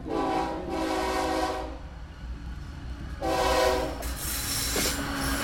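A Central American freight train with wagons rumbles steadily while its horn sounds two loud, harmonic blasts separated by a short gap.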